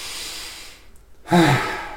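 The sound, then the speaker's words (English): A deep breath during a calming exercise: a soft hiss of air, a brief pause, then a louder, fuller breath that carries on to the end. “Take a deep breath.”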